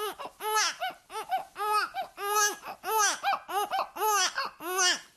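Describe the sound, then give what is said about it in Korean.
A person imitates a baby with a run of high, bouncing, laugh-like baby vocalizations in quick rhythmic bursts, fairly loud and alone, with no other voices. “자, 애기 흉내를 또 내고 있어요.”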